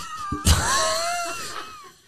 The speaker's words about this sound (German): Und dann habt ihr auch noch eine Katze.